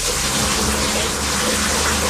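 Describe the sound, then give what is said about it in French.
Water running into a bathtub, a steady, loud rushing gush that keeps up without a break for the whole clip, heard on its own. “Eh ben, c'est l'eau qui remplit une baignoire.”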